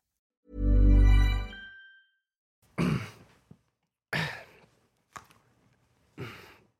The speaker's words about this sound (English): Just doing some throat clearing exercises, were you?